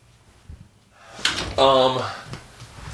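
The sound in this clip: A door being shut in a man cave, a sharp thud followed at once by a short burst of a voice.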